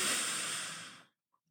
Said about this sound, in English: take a deep belly breath in and out where you feel your belly expand as you inhale